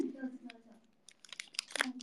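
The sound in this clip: A snack wrapper crinkles and tears, then a bite crunches as the snack is eaten, in short bright bursts that grow busier toward the end after a voice at the start.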